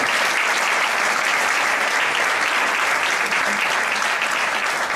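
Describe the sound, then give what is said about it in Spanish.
Sustained audience applause on stage at a football tournament presentation, a dense, even roar of many hands clapping that stays loud and steady for the whole five seconds without a break. “Creo que se merece un fuerte aplauso.”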